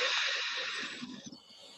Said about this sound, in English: So we're just practice this. So we breathe in,